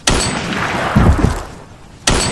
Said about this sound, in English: I take a breath and pull the trigger.